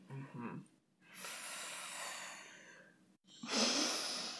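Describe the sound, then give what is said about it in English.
Airy nasal breathing during an alternate-nostril breathing exercise: two long, steady breaths separated by a brief pause, the second breath louder and brighter than the first. “Put your finger, little finger on the side of your nose. And then release your thumb. And breathe in on that side. And then you breathe out. Go to the other side.”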